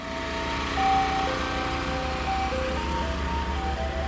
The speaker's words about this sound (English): As we chatted, an ice cream van drove past. Don't they sound different to ours?